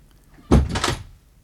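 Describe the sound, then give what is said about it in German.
An office door in a counting house is shut and bolted: a fairly loud low thud followed by a short bright scrape, with no voices. “Dann verriegelte er die Tür zu seinem Kontor, als hätte er Angst, dass etwas von dem fröhlichen Treiben auf der Straße zu ihm eindringen könnte.”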